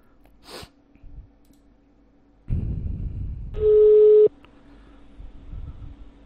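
A telephone call tone sounds after a number is dialed: a single steady mid-pitched beep lasting under a second. A burst of rough handset noise comes just before it.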